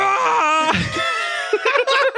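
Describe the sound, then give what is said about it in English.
A person voices an imitation of a blood-curdling scream, a drawn-out strained wail that shifts in pitch, turns rough and noisy partway through, and then breaks into short choppy bursts near the end. “Can you give it to me? The scream?”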